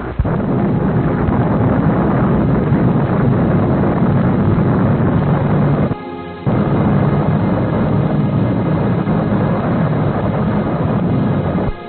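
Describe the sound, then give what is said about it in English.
A bomb explosion bursts into a loud, continuous rumbling roar that holds for the whole stretch, broken only by a brief dip about halfway through before the roar surges back at full strength. “Cover your eyes. Now, bomb away!”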